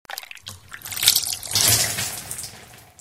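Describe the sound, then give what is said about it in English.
Juice being poured, a soft gurgling, trickling stream of liquid that swells and fades over a few seconds, fairly faint. “I can pour some juice for my little sister”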